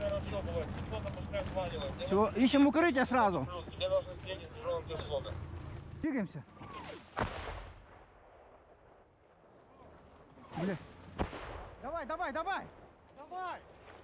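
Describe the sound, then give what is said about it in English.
Gunfire and artillery from a Ukrainian brigade moving through a bombed-out, defoliated forest toward combat with Russian forces: several sharp, loud blasts break through men talking and a low, rumbling background. “This is, for those of our listeners, this is a Ukrainian brigade working through a bombed-out, defoliated forest area, heading towards combat with the Russians.”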